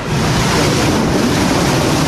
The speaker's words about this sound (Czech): v tuhle chvíli se proti nám už pustil tady opět znova plyn, palivo už hoří, oheň šlehá proti nám